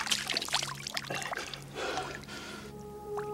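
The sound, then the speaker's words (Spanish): Water is splashed onto a face by someone crouching at a small pond with orange fish. Soft rushing and trickling water with scattered drips runs fairly quietly throughout and eases near the end. “Se echa agua en la cara y los animales se agitan.”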